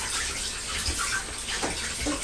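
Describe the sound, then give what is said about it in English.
Hands being washed under running water from a tap: a steady, noisy gush of flowing water with small splashy variations, continuous and fairly loud. “Mummy's got to wash her hands now”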